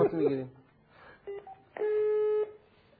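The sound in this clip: Telephone redial tones sound after a voice speaks briefly at the start: a few short DTMF beeps, then a longer steady tone held for over half a second.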